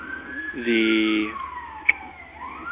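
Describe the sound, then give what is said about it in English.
An emergency vehicle's siren passes by, a loud wailing tone sliding steadily downward in pitch, with a brief blaring horn-like burst early on. “Sorry, it's a little loud from my perspective. There's some sort of emergency vehicle going by.”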